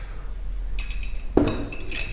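A single short glassy clink rings out during wine decanting, standing out against faint background clatter and hiss.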